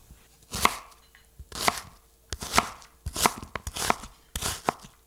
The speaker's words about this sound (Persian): پیاز رو باریک باریک خوردش میکنم، ترجیحاً یه اندازه باشه.